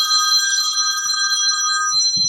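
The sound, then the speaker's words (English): A mobile phone ringing with a steady, bright electronic ringtone of sustained high tones, loud and alone for about two seconds before cutting off. “that's my phone”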